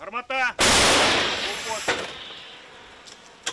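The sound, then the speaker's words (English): A single loud blast from an old American M101 howitzer fired by Ukrainian forces, a sharp crack that decays into a long fading rumble. Brief voices come just before the shot, with faint sounds trailing after. “Their gun is an old American howitzer, M101. The same type of weapon was used in World War II. Now, Ukrainian forces rely on it to stop Russian troops.”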